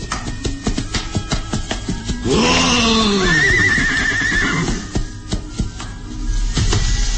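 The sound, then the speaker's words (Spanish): A horse whinnies loudly as its rider reins it to a stop, a long shrill neigh with wavering pitch that rises over a steady background of noise and then fades back into it. “el barón tira de las riendas de su caballo para detenerlo.”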